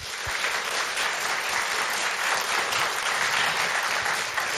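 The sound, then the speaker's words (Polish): Applause from a studio audience in a radio concert hall: a dense, even patter of many hands clapping on its own, steady and fairly loud for several seconds. “Wielkie dla nich brawa.”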